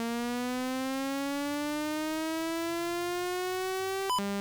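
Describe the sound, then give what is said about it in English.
A buzzy 200 hertz sawtooth tone from a synth, bright with many harmonics, holds steady and loud while creeping slowly upward in pitch. A short click near the end drops it to a lower tone. “We're going to start with the saw waveform. Prepared. So there's you, a saw wave. That's 200 hertz.”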